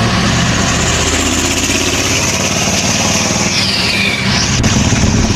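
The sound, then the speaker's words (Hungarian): An ice cream truck's engine runs in a steady, loud, continuous rumble with a dense low drone, its tone shifting slightly near the end. “Ez egy fagylaltas kocsi.”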